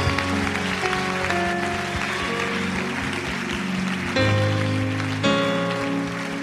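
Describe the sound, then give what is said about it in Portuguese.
An audience clapping hands during a church service, a dense, continuous patter of applause alongside sustained held tones, with no talk. “Put your hands together for Jesus. Palmas para Jesus.”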